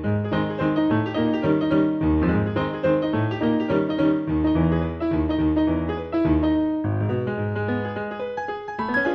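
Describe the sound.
Jazz piano from a 1916 piano roll recording on wax cylinder, cleaned up from a severely damaged original: dense, fast, busy chords and runs play loudly and continuously throughout.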